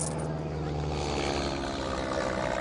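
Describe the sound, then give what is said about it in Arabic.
An airplane flying overhead makes a loud, steady propeller-engine drone that holds evenly without a break for the whole stretch. “طيارة، لك طيارة، احتموا، لك اهربوا.”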